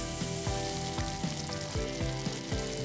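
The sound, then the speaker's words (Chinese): Sizzling of pork kidney stir-fried with Zhangshugang dried chili peppers, a loud, steady crackle throughout with repeated stirring pulses. “先把这个樟树港辣椒干煸一下，水分往外煸一煸，有一点点焦糊感。加入这个腰花，”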